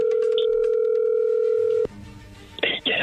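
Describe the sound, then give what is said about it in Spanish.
A telephone being dialed: a steady, loud dial tone holds for almost two seconds, then cuts off, followed by softer line noise and a short, noisy burst near the end. “ahí se está marcando.”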